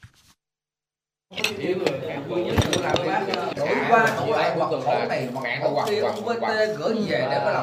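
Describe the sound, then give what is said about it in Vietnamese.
Dishes and cutlery clink and clatter at lunchtime in a staff canteen behind a commune People's Committee headquarters in Gia Lốp, Đắk Lắk province, where more than 30 officials eat. Sharp clinks come continuously under many voices talking. “trong khu bếp ăn phía sau trụ sở Ủy ban Nhân dân xã Gia Lốp, tỉnh Đắk Lắk, hơn 30 cán bộ công chức tập trung dùng bữa trưa công sở.”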